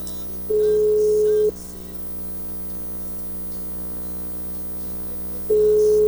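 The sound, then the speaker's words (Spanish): Telephone ringback tone on an outgoing call: a steady, single-pitch tone in two one-second bursts about four seconds apart, the second starting at the end, over quiet background hiss. “está dando tono, güey, está dando tono.”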